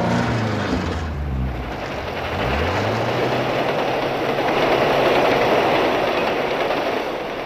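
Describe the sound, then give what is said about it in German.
A train rushes past over the track where a car had just been stuck, making a loud, sustained roar with a dense clattering rush and a low hum that slides downward early on. “Und der Zug brauste vorbei.”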